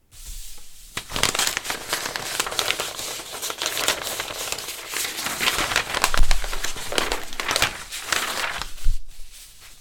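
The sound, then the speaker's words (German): A wrapped gift is unwrapped, its paper crinkling and rustling loudly and almost without pause for nearly ten seconds, with sharper crackles and tearing bursts mixed in. “jetzt wollen wir das Geschenk auspacken. Wie rüstet uns Jesus Christus für diesen Kampf aus? Ich mache es mal auf.”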